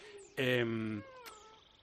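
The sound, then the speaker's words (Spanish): An Iberian lynx, a large wild cat, gives one loud, harmonic meow that holds steady for about half a second before cutting off, then quiet follows. “este sonido, que parece pues como muy simple, es un gato grande maullando, es un lince.”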